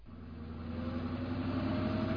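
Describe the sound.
A car engine hums steadily at a mid pitch, growing slightly louder over about two seconds as the vehicle nears, with no voices over it.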